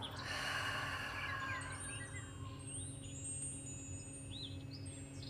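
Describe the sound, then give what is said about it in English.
A long, deep exhale through an open mouth, released during a guided breathing exercise. The breathy rush starts fairly strong and then softens as it trails off over a few seconds, above a faint, steady tonal background. “Inhale deeply, filling up the body with fresh prana. Open the mouth, exhale, and let go.”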